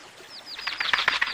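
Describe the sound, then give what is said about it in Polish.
A small bird flaps its wings in an animated scene. A few high, falling chirps come first, then a rapid, loud flurry of fluttering wingbeats. “Ładny ptaszek.”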